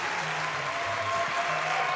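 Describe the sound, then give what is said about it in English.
A live audience in Seattle applauds in a steady, dense wash of clapping that holds at an even level without a break. “They didn't think you would be here. That's why they cheered so loud.”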